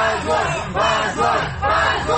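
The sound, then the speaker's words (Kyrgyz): Supporters in a courtroom shout "shame" together after a verdict, loud, rough crowd voices rising in repeated collective bursts with short dips between them. “Алардын жараянга келген тарапкерлери муну уят деген кыйкырык менен кабыл алышты.”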